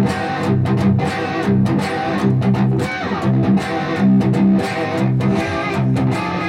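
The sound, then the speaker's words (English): A heavy distorted guitar tone grinds through thick low chords, with a steady rhythmic pulse of sharp attacks throughout. “You get such a heavy distorted tone”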